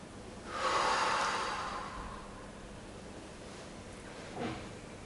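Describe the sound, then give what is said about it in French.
A deep breath taken while seated with hands on thighs during a guided relaxation exercise. One long, soft, airy rush of breath is followed a few seconds later by a shorter, fainter breath. “Prenez trois respirations bien profondes.”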